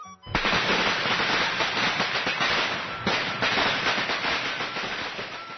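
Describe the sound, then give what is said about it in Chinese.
Firecrackers set off for the New Year holiday make a dense, loud, continuous crackle of rapid pops, a string bursting without a break for several seconds with no voices. “放炮啊！ 放炮啊！”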